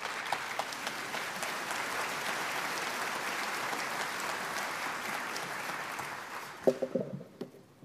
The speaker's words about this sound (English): Would you give them a warm welcome?